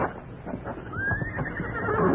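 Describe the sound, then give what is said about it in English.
A horse neighs near a house: one whinny that climbs in pitch, rising out of low background noise. “There. The horse again. It's beyond the house.”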